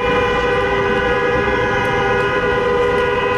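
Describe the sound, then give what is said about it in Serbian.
Car horns blare from a convoy of taxis arriving at Slavija Square during a taxi drivers' protest, a loud, steady chorus of overlapping horn tones that holds throughout with no voices. “Uz zvuk automobilskih sirena, kolona taksi vozila stigla je na Trg Slavija.”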